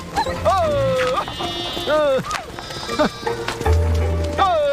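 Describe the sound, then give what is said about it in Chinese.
Lamb bleating: several loud, wavering bleats with clear tones, each rising and then dropping, come one after another with short gaps between them. “嘿，哎，这小羊肥的 还。”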